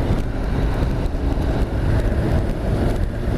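A 2019 Honda NC750X motorcycle accelerates in fourth gear, its steady engine rumble blended with rushing wind noise, loud and continuous throughout.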